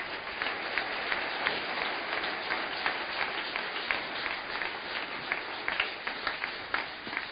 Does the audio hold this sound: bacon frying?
no